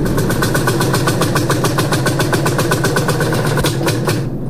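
Farm vehicle engine running out of fuel in a field, a loud, evenly pulsing chug that holds steady and then dies away at the very end.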